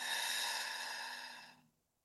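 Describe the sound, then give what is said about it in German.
A single long, steady breath during a guided exercise of deep inhaling through the nose and exhaling through the mouth. It stays even for most of its length, then fades away into silence near the end. “ganz tief durch die Nase einatmen. Halten und durch den Mund wieder ausatmen.”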